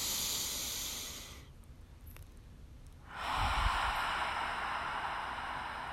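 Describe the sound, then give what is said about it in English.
A deep, slow breath: two long, airy, hissing breath sounds with a brief quieter gap between them, the second fuller and louder, with no talk. “Taking a deep and slow breath. Once more.”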